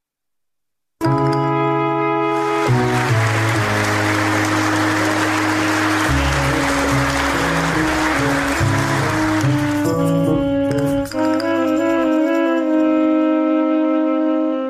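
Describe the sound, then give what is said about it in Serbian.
A theatre audience in Belgrade applauds the actors after a premiere, a dense rush of clapping mixed with loud, sustained music. The clapping fades near the end while the music carries on alone. “Publika u Beogradu pozdravlja glumce nakon još jedne uspešne premijere.”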